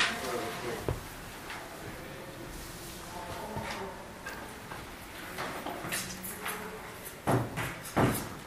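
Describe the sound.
A door or window is pushed shut in a room where people talk in the background, with a few sharp knocks and thuds, the loudest two near the end.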